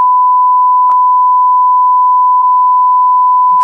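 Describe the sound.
A censor bleep for covering swearing: one steady, pure, high-pitched tone held unbroken for a few seconds, loud, with a couple of faint clicks.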